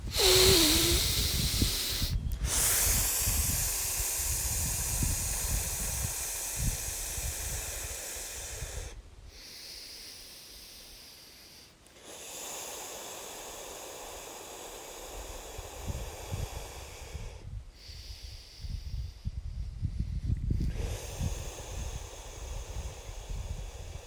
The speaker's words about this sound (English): Shall we take 3 deep breaths?